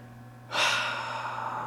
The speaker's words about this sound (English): Deep breath.